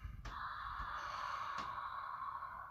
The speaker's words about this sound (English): we're going to use our breath as if to fog up the mirror with our breath, exhaling the ha sound out the mouth.